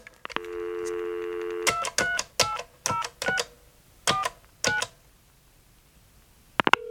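Touch-tone telephone dialing on a keypad: a steady tone, then seven short electronic beeps tapped out in an uneven rhythm, followed by a brief click at the end.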